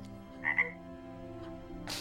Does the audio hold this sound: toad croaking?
yes